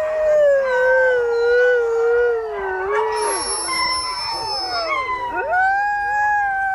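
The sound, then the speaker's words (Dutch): A dog howls in long, sustained, wavering tones that slide up and down in pitch. The loud howls overlap and continue without a break. “dit is toch echt een huilende hond”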